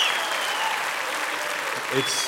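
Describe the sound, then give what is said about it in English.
A church audience applauds to welcome a visitor to the morning service. The clapping is soft and steady, with a voice entering near the end. “Won't you just give Ansa a good round of applause?”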